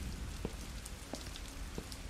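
Steady rain falling at night over a courtyard, a dense continuous hiss with a few louder drips scattered through it.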